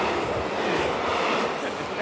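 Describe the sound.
A freight train in the Middle Rhine valley at Bacharach makes a steady, loud, continuous rumble and rattle of wheels on rails, unbroken throughout.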